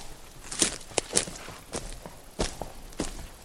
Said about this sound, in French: Des minutes, des heures durant, le chasseur marche.